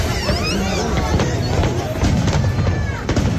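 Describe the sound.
A fireworks display crackles and bangs in a dense, continuous barrage, with many sharp pops and a few whistling streaks, recorded among spectators whose chatter runs underneath.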